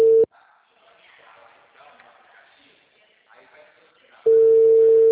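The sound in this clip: A steady telephone tone sounds while a call is being placed. A short burst is cut off, then a voice speaks, and a loud, unbroken single-pitch tone returns at the end.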